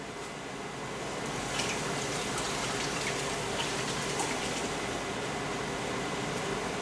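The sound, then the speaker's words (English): Water boiling in a pot with meat, oregano, garlic powder and cumin: a dense, continuous bubbling and hissing wash that stays steady throughout, with no voices. “And right now we have them boiling with oregano, garlic powder, and some cumin”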